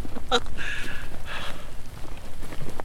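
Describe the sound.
Quick, even footsteps of people walking rapidly through woods crunch in a steady rhythm, with a couple of brief breathy sounds early on.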